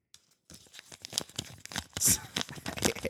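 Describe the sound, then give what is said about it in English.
Paper envelope torn open by hand: a run of crisp, crinkly ripping and rustling bursts that starts after a short pause and continues for about two and a half seconds, with one sharper, brighter tear near the end. “Open the envelope.”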